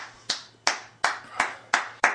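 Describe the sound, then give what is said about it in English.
Six sharp hand claps, evenly spaced and fairly faint, each a crisp snap that stands alone against quiet. “Now we're going to go for, feeling pretty good. I think we'll go for 14 claps per second.”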